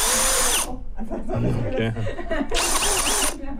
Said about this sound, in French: c'est monté sur un outil qui est assez courant, qui est une perceuse.